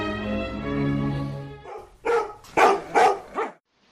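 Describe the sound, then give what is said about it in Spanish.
Dogs bark four times in quick succession, sharp and fairly loud, after a long steady tonal sound. “Los perros de Patlo.”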